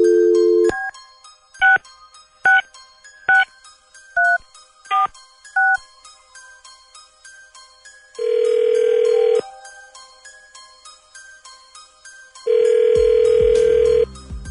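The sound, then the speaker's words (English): Telephone keypad tones beep in a quick, uneven run after a short steady tone, then two long ringback tones sound as the call connects. No one speaks. “Dialing at random.”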